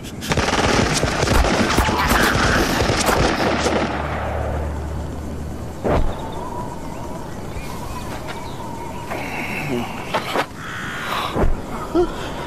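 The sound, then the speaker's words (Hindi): Gunfire in rapid, dense bursts crackles loudly through the first few seconds, then thins to scattered single shots with pauses between them. “अरे इन पर गोलियों का असर क्यों नहीं हो रहा है? सामने निशाना लगाओ। फायर करो।”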